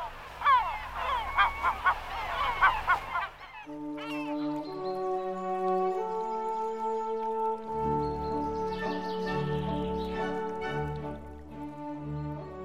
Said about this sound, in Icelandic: Sumum þykja hljóðin í mávum minna á hlátur og finnst því mávarnir alltaf vera að hlæja sér.